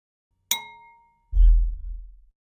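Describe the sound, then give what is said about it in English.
A cereal bowl struck by hand gives a bright, ringing clang that slowly decays, followed by a deep, booming low tone lasting about a second. The start of another hit comes at the very end. “there's this sort of like low bass sound that's happening in that track. And that's just from hitting a bowl that was, I think it was like I had a cereal bowl next to me.”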